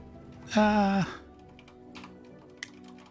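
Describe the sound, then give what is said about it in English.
Soft computer keyboard typing, a few faint key clicks scattered after a short voice-like tone near the start. “Oops, that was my bad. Typed in the wrong spot. I need to really quickly...”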